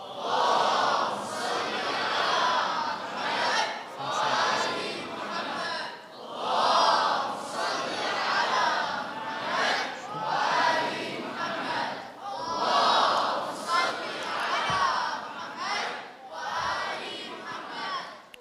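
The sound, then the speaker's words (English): An audience loudly chants salawat in unison at a religious gathering while welcoming a cleric. Many voices blend into a dense, rhythmic chant of repeated phrases with short swells and dips. “Please recite three loud salawats ala Muhammadin wa Ali Muhammad, welcoming Samahat Sayyid.”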